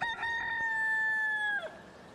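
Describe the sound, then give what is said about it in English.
A rooster crows once, a loud, sustained, harmonic-rich call that holds a steady pitch for about a second and a half before dropping away abruptly, followed by quiet. “We have audio of the rooster, sir.”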